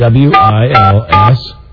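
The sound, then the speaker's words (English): Telephone keypad touch tones while a name is entered into an automated phone directory: three short, steady beeps sound under a recorded voice prompt that keeps talking. “Please enter the name, last name followed by first name. If you have finished dialing, push pound.”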